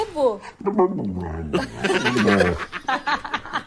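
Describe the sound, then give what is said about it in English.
A husky-type dog vocalizes and 'talks' to its Italian owner in warbling, pitch-sliding yowls and moans that run almost continuously, loud and expressive throughout. “Now it's a similar sort of husky breed. They're obviously quite a vocal dog. This one is talking to its Italian owner, and it has an Italian accent.”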